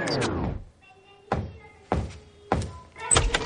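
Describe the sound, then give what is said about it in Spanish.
Hands banging on the front door of a house, heard as a few dull, heavy thuds spaced at an even rhythm with quiet gaps between them. “el chico se baja los pantalones y golpea la puerta con las manos en la entrepierna”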